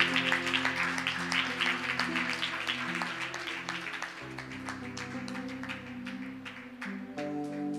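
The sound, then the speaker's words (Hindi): An audience claps to welcome a church brother at a worship service in Etah. The quick, faint clapping sits over sustained keyboard chords that shift partway through. “हमारे church के एक विशेष भाई हैं, तालियों से हम स्वागत कर सकते हैं।”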